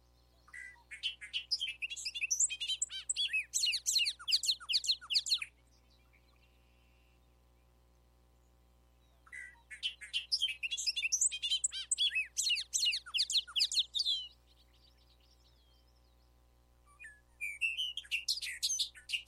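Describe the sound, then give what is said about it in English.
Bobolink song: bubbly, tumbling runs of high, rapid, metallic notes in three bursts separated by pauses, over a steady low hum. “Bobolink.”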